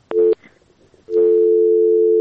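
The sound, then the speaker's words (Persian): Telephone busy tone on a call-in line after a caller is disconnected: a short steady beep, a brief gap, then a long unbroken tone, loud and alone. “خب فکر میکنم تماس شنونده ما قطع شد.”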